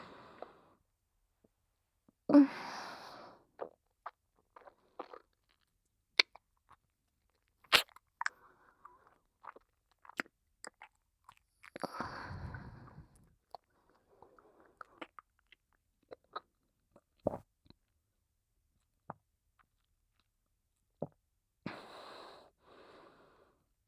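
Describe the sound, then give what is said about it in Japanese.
Someone chews food in soft, irregular crunching and biting sounds, faint and scattered across long quiet gaps. A few louder bursts of breathing and mouth noise break up the chewing. “よく味わってからごっくんするね。”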